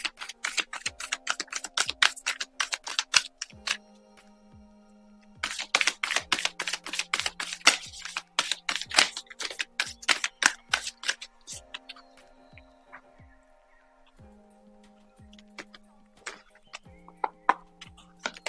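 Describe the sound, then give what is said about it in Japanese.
Oracle cards being shuffled and drawn from a deck make rapid flapping clicks in dense bursts separated by short pauses, crisp and bright against otherwise quiet surroundings. “それでは今日のオラクルカードを引いていきますね。お待ちください。”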